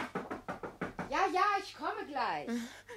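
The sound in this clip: Knocking at a door in a German radio play: a quick run of several sharp, evenly spaced raps, after which voices speak.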